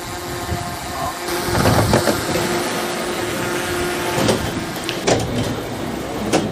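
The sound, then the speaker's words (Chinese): Steady low engine drone of a smart minibus shuttling people across a large campus, a continuous hum with a few sharper clunks standing out above it. “这是我们的智能小巴，因为我们的园区很大，小巴在我们的园区承担一些接驳工作。”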